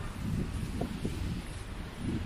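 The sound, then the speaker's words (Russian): Outdoor wind blowing straight into the microphone, a steady low buffeting rumble that fills the whole clip with no pauses and no voices. “Ветерочек. Есть ветерочек. Есть. Мне в лицо дует. Дует в лицо, не знаю, как скажется на микрофоне.”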